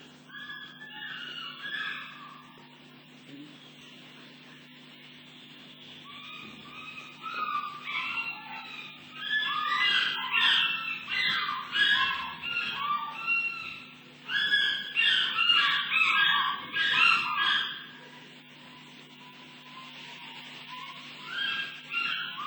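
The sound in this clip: An African fish eagle calls in several bursts of loud, yelping cries separated by quieter gaps, with a steady low hum running beneath.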